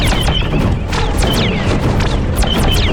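A dense gunfire barrage created as a sound effect for an audio drama: loud, continuous blasts with many rapid, whistling zaps that fall in pitch, layered over a constant roaring rumble.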